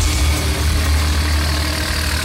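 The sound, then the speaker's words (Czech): Engine of a loader rumbles steadily and loudly as it drives through the Kamenice nad Lipou station yard carrying heavy oak railway sleepers on its forks, a constant low drone with no talk. “Prostoru nádraží Skokolejky v Kamenici nad Lipou jede nakladač. Na vidlích má těžké dubové pražce.”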